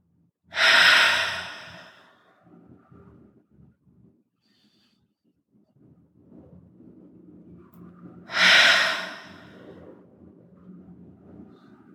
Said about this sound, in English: If you want to take a deep breath in with me, I'm going to do two at your own pace. Start with a deep inhale in.